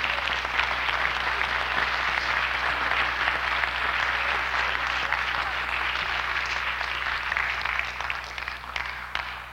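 A church audience applauds to welcome visitors, a dense, steady wash of clapping that runs unbroken the whole time and eases slightly at the very end.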